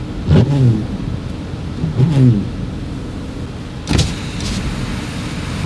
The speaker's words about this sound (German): Wir fahren jetzt 50, die K19 runter.